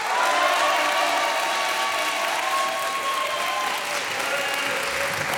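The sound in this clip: A studio audience applauds at a quiz game taping in Saint-Denis, welcoming a pair of contestants. The clapping is dense and sustained, with faint cheering tones over it, and it eases slightly toward the end.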